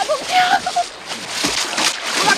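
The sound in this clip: A person falling into a river makes a broad, rushing splash, followed by sloshing, churning water, with voices calling out over the noise.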